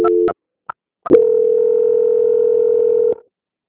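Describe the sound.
A telephone line tone plays during a call transfer. A few short electronic beeps come first, then a steady, clear single-pitched tone holds for about two seconds before stopping abruptly.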